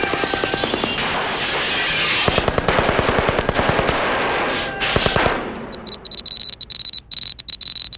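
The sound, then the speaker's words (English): Gunfire from many guns during a shootout at a gun show: loud, dense rapid automatic bursts rattling almost continuously, then thinning into sparser, separated shots toward the end, with no voices. “So many people are shooting off guns. I don't know which one's the crazy guy. Just keep on shooting.”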